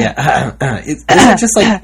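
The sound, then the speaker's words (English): A man's voice imitates throat clearing with a few short, throaty "hem" sounds in quick succession, each clipped and guttural, loud and close. “I have a lot of British friends, and one British male in particular that I know clears his throat a lot when he talks. Okay. I mean, a lot.”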